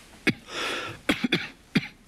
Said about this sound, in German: Dein Husten.